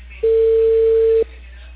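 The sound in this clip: A telephone line's ringback tone sounds once as a call connects: a single steady, mid-pitched beep lasting about one second, followed by quiet line hiss.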